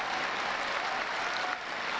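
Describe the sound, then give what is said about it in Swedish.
Standing ovation applause from an audience for Fumito Ueda, creative director of The Last Guardian: dense, steady clapping that holds at an even level throughout. “Och sen Fumito Ueda är i publiken och ställer sig för lite ovationer. Stående ovationer också från en hel del.”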